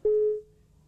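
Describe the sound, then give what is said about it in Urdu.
A phone line cutting off as a caller disconnects, heard as one short, clear electronic beep at a steady pitch that stops abruptly, leaving faint hiss. “جی وہ disconnect ہو گئے ہیں، ان کی line کٹ گئی ہے۔”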